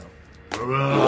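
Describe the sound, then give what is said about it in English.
A person imitates a bear with a short, guttural roaring cry for help. It starts with a sharp onset and swells into a loud, rough growl lasting about half a second. “A large guttural roaring help.”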